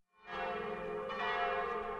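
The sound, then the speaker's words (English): Church bells ring on a Sunday in a small farming village in Brittany. A rich, humming bell tone swells in after a brief silence and sustains, fairly faint, with no voices. “Sunday bells call the faithful to worship in the village of Erillac”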